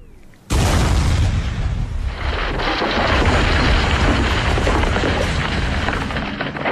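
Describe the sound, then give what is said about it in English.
A sudden, heavy blast of blasting powder blowing up a windmill, a sharp onset followed by a loud, sustained rumbling roar that barely fades over several seconds. “Do you not see what they are doing? They're going to pack blasting powder into that hole.”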